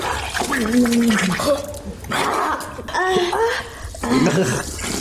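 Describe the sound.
Wet gagging and retching noises play from an adult video, heard as gurgling, throaty vocal sounds. They come in several uneven bursts with short gaps and strained, wavering vocal tones.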